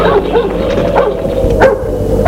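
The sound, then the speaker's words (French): A dog at a farm barks and yips in a few short, sharp bursts, fairly loud over a steady low background hum. “Le chien aboie.”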